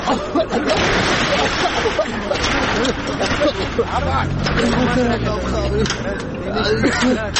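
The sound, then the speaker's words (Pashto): A motor vehicle pulls up with a low engine rumble beneath a crowd of people talking and calling out. “والکان دا د موټر راغی. هله زر ور پورته شئ، پورته شئ.”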